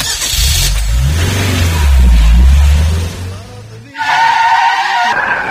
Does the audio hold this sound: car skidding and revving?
yes